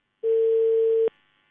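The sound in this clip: A steady, unbroken mid-pitched telephone dial tone plays alone while a call is placed, lasting under a second before cutting off with a sharp click.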